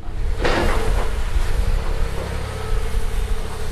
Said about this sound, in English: An excavator hacking away at the southwest side of the building yesterday. It took out some bricks.